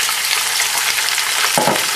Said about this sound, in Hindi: यहीं पर आप ऐड कर लेंगे जो आपका चिकन है